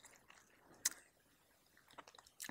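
Chewing on squid and convenience-store fish cake during a drinking session: soft, quiet, squishy mouth sounds, with a few sharper crunchy clicks standing out.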